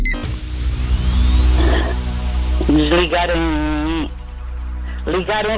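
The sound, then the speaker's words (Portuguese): An old radio is switched on: a steady low hum with a thin whistle that slowly climbs in pitch, then voices come through over the hum. “Ligar um rádio. Ligar um rádio. Okay. Ligar daqueles antigos.”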